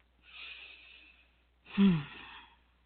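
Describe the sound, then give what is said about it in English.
Two faint breaths: a deep inhale through the nose, a soft airy hiss of about a second, then a slow exhale through the mouth, fuller and slightly louder with a low sighing edge. No talk. “I just want you to inhale deeply through your nose and exhale slowly through your mouth.”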